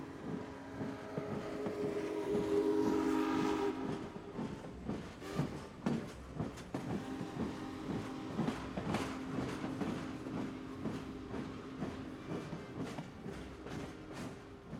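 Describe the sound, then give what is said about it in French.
A train leaving Paris Gare de Lyon gives a steady rumble with many sharp clacks and rattles and a humming tone early on, continuous throughout. “Compass n'hésite pas. Il prend le premier train gare de Lyon à Paris.”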